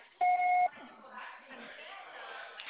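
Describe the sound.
A voicemail recording beep: one short, steady electronic tone, clear and loud, followed by faint low murmuring.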